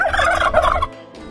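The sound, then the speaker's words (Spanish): A single turkey gives a rapid, warbling gobble, a loud rattling burst of about a second that cuts off into a faint tail. “En este caso, un pavo asesino. No son muchos, no, es uno, el que estás viendo ahora mismo.”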